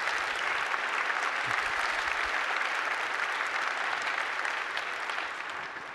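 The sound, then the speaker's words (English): An audience applauds to welcome a family at a church service, with steady, dense clapping for about six seconds that eases slightly at the end. “So help me welcome them from the Classic service.”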